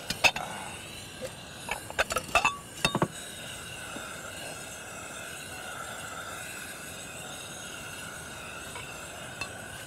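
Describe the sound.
Plates and dishes clink as they are set on a table for a breakfast of bread and orange juice: several sharp, brief knocks in quick succession over the first seconds, then only a steady low background.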